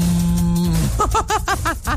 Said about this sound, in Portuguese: pedindo um colega pra tocar um berrante, eu também sei tocar berrante, olha só.